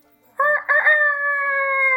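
A rooster crows once, loud and alone, opening with a rough, broken start before settling into a long, steady, sustained note.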